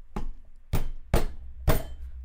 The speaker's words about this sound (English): in uneven intervals banging against this door. It doesn't seem to know how to let itself in.